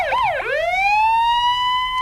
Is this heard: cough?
no